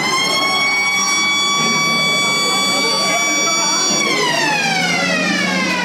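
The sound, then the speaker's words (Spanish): School siren signalling recess, a loud sustained electronic wail with a steady tone that slides lower in pitch near the end over a noisy background. “Por fin sonó la sirena para poder ir al recreo.”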